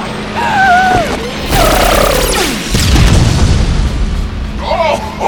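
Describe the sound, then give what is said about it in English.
Loud missile explosions: a few heavy booming blasts and crashes with falling whistling sweeps, while a voice speaks over the noise. “Would you stop with the missiles already?”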